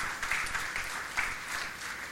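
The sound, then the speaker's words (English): A church audience claps in praise, a faint, steady patter of many hands with small swells, continuing alone without speech. “Can we give the Lord a clap of praise?”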